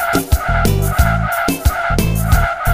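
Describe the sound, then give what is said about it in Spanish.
Car brakes screech over a repeating music beat with heavy thumping bass. Squealing tire sounds recur in a steady rhythmic loop and stay loud throughout. “Los frenos del automóvil hacen...”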